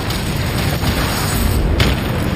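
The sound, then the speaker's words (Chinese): Towed six-tube, remote-controlled rocket launcher firing a salvo: a continuous, loud booming roar that stays dense and even, with no clearly separate blasts. “它使用遥控，让所有火箭在一次性齐射中完成毁灭性打击，10秒内射出6枚火箭。”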